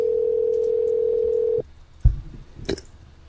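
A telephone ringback tone on an unanswered call: one steady, even-pitched ring holds for over a second and then cuts off, followed by a few faint clicks and knocks.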